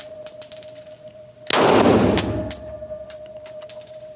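A single loud gunshot, test-fired at about 4 feet for a stippling test, bursts sharply then decays over roughly a second. A steady faint tone and a few light clicks sound before and after.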